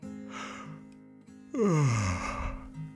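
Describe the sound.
A voiced yawn imitated by a narrator telling a children's story about a little robot, a drawn-out groaning vowel that slides down in pitch, heard over soft, steady background music.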